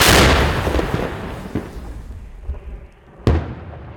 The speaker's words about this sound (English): These firing American rounds in a donated Paladin.